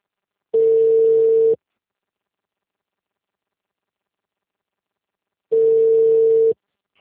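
Telephone ringing tone heard while calling someone: two steady, mid-pitched one-second beeps separated by about four seconds of silence.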